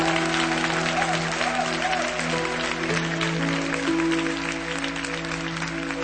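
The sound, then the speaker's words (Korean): A church audience applauds during a worship service: steady, dense clapping that holds at an even level throughout, with sustained musical tones underneath and no speech. “우리 하나님께 다시 한번 큰 영광의 박수를 드렸으면 좋겠습니다.”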